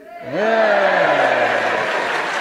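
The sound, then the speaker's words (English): A theatre audience cheers at the Picture Playhouse Theatre for the first Beverley Comedy Festival in East Yorkshire. The loud crowd noise swells in at about a third of a second, and one sustained voiced whoop carries through it with slowly falling pitch. “I'll explain to our listeners that cheer was because it's the first comedy festival in Beverley, and they're making it a first and memorable occasion.”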